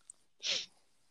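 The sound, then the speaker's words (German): A single hiccup, a short breathy burst with a sharp onset, soft and alone. “Ups, genau. Entschuldigung, hab Schluck auf.”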